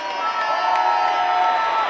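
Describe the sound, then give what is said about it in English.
Australian football crowd erupting at the final siren of an Essendon–Carlton match, a continuous roar of cheering with a long steady siren tone sounding through it. “As the final siren sounds,”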